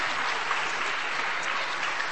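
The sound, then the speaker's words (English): Audience applause at a church gathering after a correct quiz answer: a full, continuous wash of many hands clapping, steady and loud throughout with no pauses. “Round of applause.”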